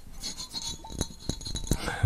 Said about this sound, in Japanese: これね、リキッドサウンドをやるのにね、一番いいボトルです、これ。